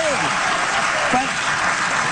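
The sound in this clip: Audience applause, a dense, unbroken burst of clapping that holds at a steady, fairly loud level throughout, with a voice faintly audible beneath it.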